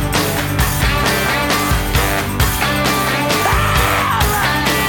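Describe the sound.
A short 1960s-style rock scream inside a track from a 1996 album, buried in a loud, dense full-band mix with steady, pounding drums throughout.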